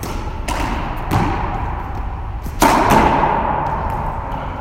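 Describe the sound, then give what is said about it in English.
Racket hitting shots, a few dull, sharp thumps over steady background noise, with the last impact the loudest. “If it feels bad, I'm going to use another racket for the shots.”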